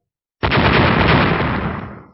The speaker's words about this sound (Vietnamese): Hơn 10 cái phù lục tỏa ra hào quang chói mắt rồi phát nổ đến kinh thiên động địa.